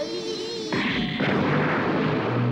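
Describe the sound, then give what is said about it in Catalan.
A large flame blast fired from a robot's armed arm bursts in as a sudden loud, broad roar that keeps rushing and crackling steadily to the end, following a brief thinner tonal hum at the start. “Els dispara una gran flamarada amb el braç armat.”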